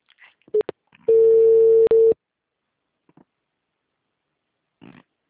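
Telephone ringing on a call line: a single steady, buzzing tone lasting about a second, with a couple of brief clicks before it and faint scattered noises after.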